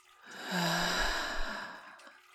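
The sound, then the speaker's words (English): A single long, audible exhale out through the mouth, taken during a guided meditation, swells and then slowly fades as a breathy sigh lasting about two seconds. “and an audible exhale out through your mouth. Let's do that 2 more times, in and out.”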